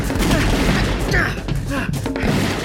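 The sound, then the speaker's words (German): A volley of rifle gunfire in a radio drama chase: a dense, continuous burst of overlapping shots and booms lasting a couple of seconds, with shouting voices mixed in. “Los, die Gewehre! Und Feuer!”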